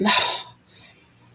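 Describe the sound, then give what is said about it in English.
A person's hiccup: a sharp, breathy burst followed by a fainter, brief trailing sound. “Oh, hiccup.”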